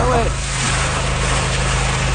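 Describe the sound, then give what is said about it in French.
Water sprayed from a hose onto a smouldering hot spot buried in the soil after a huge wildfire: a steady, broad hiss over a low droning engine hum. A brief voice is heard at the start. “Et là, maintenant, il va l'arroser pour terminer l'extinction.”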